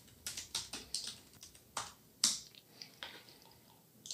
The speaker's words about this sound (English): So if we type Terraform apply,